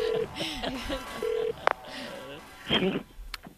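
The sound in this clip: Telephone keypad tones as an international call is dialed: a few short electronic beeps, with a voice talking and other bright sound effects around them.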